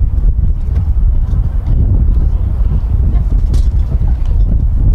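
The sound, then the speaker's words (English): Wind blows across the microphone at an outdoor baseball game in chilly, breezy Birmingham, a loud, continuous low rumble with no breaks. “getting a little breezy here in Birmingham”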